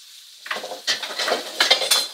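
A metal utensil scrapes and clinks against a hot frying pan over high heat as a fish, cooking in browned garlic-infused butter with caramelizing lemons, is lifted and moved, producing several short, crisp scraping clatters.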